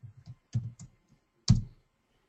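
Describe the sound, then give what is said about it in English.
Typing on a computer keyboard and then hitting enter: a few quick, soft key clicks, a short pause, then one heavier, louder keystroke. “So just type in a question mark and then hit enter.”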